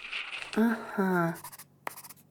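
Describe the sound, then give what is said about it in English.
Drawing a monster on a sheet of paper makes short, scratchy strokes, heard before and after a voice speaks. “Here's a sheet of paper. Can you draw a monster on this sheet of paper?”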